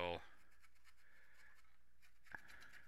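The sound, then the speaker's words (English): Paint is dry-brushed in a bleached-bone color onto a large piece with quick, rough strokes, a faint, repeated scratchy brushing in a steady rhythm. “I dry brush it with kind of like a bleach bone. Type. And since this is a really big piece, it's going to just be, you know, quick and dirty type thing.”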